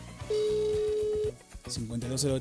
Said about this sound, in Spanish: Como ven, ya está sonando el teléfono.